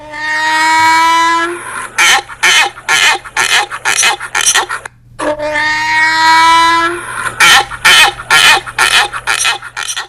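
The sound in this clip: A donkey braying loudly twice. Each bray opens with a long, harsh, tonal honk and breaks into a run of rapid, rasping gasps, with a short silence between the two brays.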